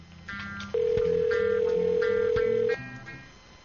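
Telephone tones as a call is placed. A steady, loud tone holds for about two seconds, with fainter background sounds before and after it.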